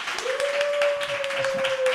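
Live studio audience applauding as a long, steady whistle is held above the clapping, the crowd noise staying full and even throughout.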